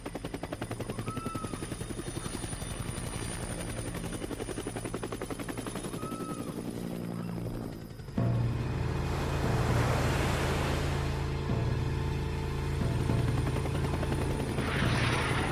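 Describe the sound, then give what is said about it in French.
Two helicopters flying out over the sea, with a steady, rapid rotor chop throughout. After about eight seconds a louder, more whining engine tone and a rushing noise join in. “Des éclairs lumineux sont repérés au large et 2 hélicoptères sont envoyés.”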